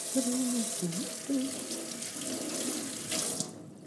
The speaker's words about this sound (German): Ich wasche jetzt da einfach mal ein paar Sachen ab, die wir nicht mehr brauchen.